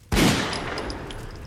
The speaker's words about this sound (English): I fire one 88mm round through his cranium.